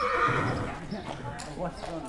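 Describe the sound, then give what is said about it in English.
Draft horses whinny at farm stables, a neigh rising under the chatter of people talking nearby. “During my final stop at the farm, I went to the stables where I ran into a bunch of families enjoying the company of Young Living's draft horses.”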